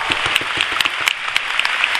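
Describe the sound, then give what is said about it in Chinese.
Audience applause at a company product seminar in Taiwan: dense, steady clapping from many hands for two seconds, with sharp individual claps standing out from the continuous patter. “请各位给自己一个掌声，好不好？”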